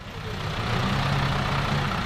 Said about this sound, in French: 7h moins quart, un bus navette arrive au débarcadère de Lugrin, commune située à 5 km d'Évian.